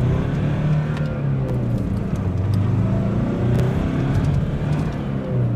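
A car driving, its engine a steady low hum whose pitch drifts gently up and down, with no talk over it.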